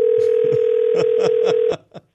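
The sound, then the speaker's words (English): Telephone dial tone while placing a call: a loud, steady single tone with soft regular pulses about every quarter second. It cuts off abruptly near the end, followed by a couple of brief clicks. “I'm calling you.”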